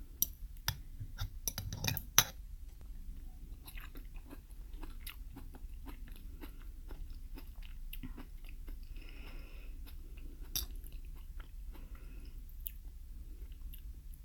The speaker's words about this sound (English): Never had fern before. It looks like asparagus. Has this pretty green color. Let me try a piece of that first, without the mussels, without the eggs.